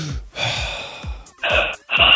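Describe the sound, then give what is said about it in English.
Deep breathing by a nervous person on cue, a few loud, breathy gasping bursts with short gaps between, the last two sharper and more forceful, with no talk over them. “Deep breath with me. One, two, ready?”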